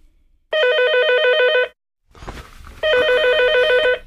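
A telephone bell rings one morning in two loud, trilling bursts of about a second each, separated by a short gap. The ringing stands alone with no talk over it.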